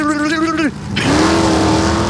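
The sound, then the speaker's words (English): A voice imitates a drag race car starting, making a buzzing, engine-like drone that wavers, cuts off briefly, then resumes as a long, steady hum. “A drag race car doesn't sound like... You're talking about when the cars are getting ready to go? Definitely when it's starting”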